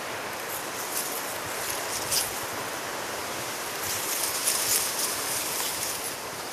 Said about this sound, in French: Mais aussi ce léger son aigu. Ce sont les roseaux.